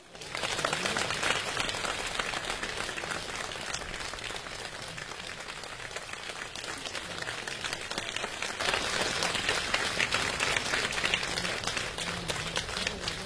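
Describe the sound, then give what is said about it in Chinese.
Sustained audience applause at a live crossed-talk comedy show, a dense, steady wash of clapping that runs unbroken throughout and swells slightly toward the end. “谢谢，谢谢大家的掌声， 感谢大家，谢谢了， 谢谢。”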